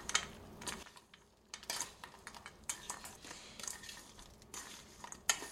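Almonds being stirred in a bowl: faint, scattered clinks and rattles of a utensil against the dish, with a few sharper taps standing out.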